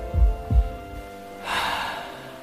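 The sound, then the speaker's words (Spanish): A dying man's last exhaled breath: two low, soft thumps come first, then a faint, airy rush of breath lasting about a second and fading out, with no voices. “Exhalando su último aliento, Jesús bajó la cabeza.”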